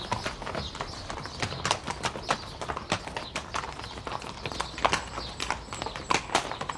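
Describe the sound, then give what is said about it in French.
A small horse trots with many quick, light hoofbeats in a steady clip-clop rhythm, fairly faint and heard alone. “Ton petit cheval souffle, halète, s'arrête.”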